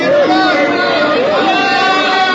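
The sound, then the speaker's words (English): A crowd on a river bank shouts, a loud, steady mass of overlapping raised voices with some wavering, sustained calls rising above the babble. “Suddenly a shout went up from the crowd along the bank.”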